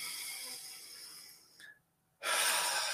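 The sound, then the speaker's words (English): A deep breath drawn in and let out during a guided relaxation: a long, airy rush of breath that fades, a brief near-silent pause, then a loud, full breathy release. “allow yourself to take in a nice big deep breath”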